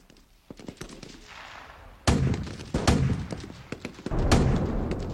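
Bombs and rockets explode near a village under attack by the Vietnamese army, with many sharp cracks and several heavy booming blasts and rumbling in between, growing louder toward the end.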